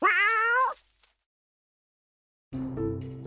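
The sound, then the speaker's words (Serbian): An old cat gives one long, wavering meow, loud and alone, then falls silent before another sound starts after the pause. “Ali, to je bila samo stara Lenina mačka.”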